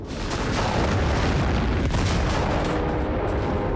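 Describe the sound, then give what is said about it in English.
Explosions rip through a burning factory: a continuous, loud, heavy rumble of booms with several sharper blasts breaking through. No voices are heard. “ducks for cover as explosions occur all over the factory. One of the mighty chimneys collapses as smoke rises up from the burning buildings.”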